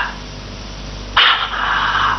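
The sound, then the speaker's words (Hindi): Police dogs barking: after a second of low hum, a loud, harsh bark bursts in and carries on as rough, sustained barking and growling to the end. “हाँ अच्छा, तो police के कुत्ते आकर मेरे पीछे लगी गए”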